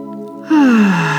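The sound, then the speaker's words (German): A deep, powerful breath is drawn in during a guided relaxation exercise: a sudden strong, airy inhale over soft sustained tones, with no speech. “Und nimm dann erstmal einen ganz, ganz tiefen, kraftvollen Atemzug.”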